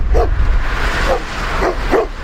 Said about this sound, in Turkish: Köpekler birbirine girdi, paniğe yol açtı.